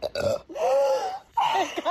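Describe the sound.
A person burps, among the first burps ever for someone who could not burp before Botox treatment. Three short, croaky voiced bursts with laughter-like quality come separated by brief pauses.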